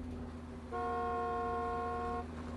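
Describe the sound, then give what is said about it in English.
A car horn sounds one steady blast of about one and a half seconds at a car driving along, over a low, continuous background hum. “As Margot drives along, someone hoots at her.”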